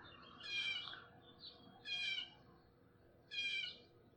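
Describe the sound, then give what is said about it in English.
A blue jay calls near a bird feeder: three harsh, buzzy calls come at even intervals, with a softer short note between the first two, over a quiet outdoor background. “I wonder if that blue jay's talking about me. It's like some dude sitting at my favorite feeder. That's blue jay language for fuck this guy.”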